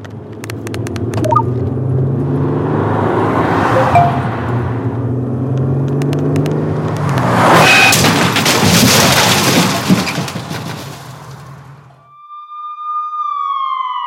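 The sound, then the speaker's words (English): A car travels on the road while its driver is distracted by texting: a steady engine drone swells into a louder roaring burst like a crash, then the noise falls away and a siren wails alone at the end. “These are the sounds of someone taking their eyes off the road. Texting while driving is more than distracting. It's dangerous.”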